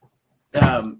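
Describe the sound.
A single short, rough cough with a throaty, throat-clearing quality from someone who has a cold and a running nose. One burst, heard alone with no talk.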